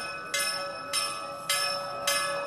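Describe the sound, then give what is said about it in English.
Temple bells ringing for evening prayers in Adarsh Nagar, four evenly spaced, bright metallic strikes, each leaving a sustained ringing tone that carries into the next. “As the temple bells ring in Adarsh Nagar, people gather for evening prayers”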